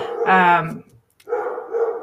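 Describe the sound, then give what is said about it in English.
Dogs barking indoors: one loud, harmonic bark near the start, then after a brief silence a rougher, quieter stretch of noisy sound. “I apologize for my dogs there”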